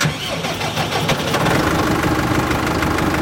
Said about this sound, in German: Also wir fahren heute mit dem Mähwerk. Das ist immer die allererste Arbeit.